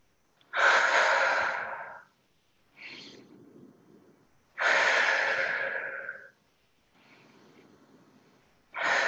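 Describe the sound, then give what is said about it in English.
Slow, deep breathing in through the nose and out through the mouth during a guided exercise. Long, loud, airy breaths alternate with softer, quieter ones at an unhurried, steady pace. “Maybe envisioning that cycle in through that nose, pulling in that energy, pulling it out through that mouth, letting it flow in. Flow out.”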